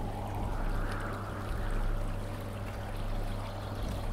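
Water rushes steadily as a boatman rows a boat across to the far bank. The wash is dense and unbroken, with no distinct oar strokes and a low hum underneath.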